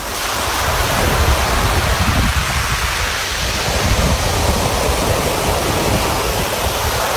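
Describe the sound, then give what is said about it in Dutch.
Roar of a heavy storm: a dense, steady rush of wind and water noise that stays loud throughout without a break. “Want dit is wel echt een heftige storm, volgens mij.”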